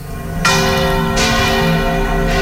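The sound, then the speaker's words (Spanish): Church bells of Jaén Cathedral peal at midday before a religious celebration. Three clear, evenly spaced strikes each leave a loud, sustained shimmer of overlapping ringing tones, with no voices. “La Catedral de Jaén, dedicada a la Asunción de la Virgen, ha hecho hoy repicar sus campanas.”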